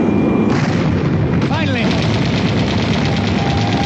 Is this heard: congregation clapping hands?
no